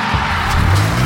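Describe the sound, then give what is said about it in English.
The CJWE Cruiser rolls in with a short, loud rush of engine and tyre noise over a steady low rumble. “That's the sound of the CJWE Cruiser rolling in, powered by ATB Financial.”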